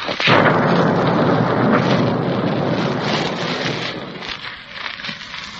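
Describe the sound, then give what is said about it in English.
A nearby V-1 flying bomb explodes in a loud, roaring blast that rumbles on for a few seconds and then slowly dies away. “Brother, that doodlebug was so darn near the blast blew the whole queue flat.”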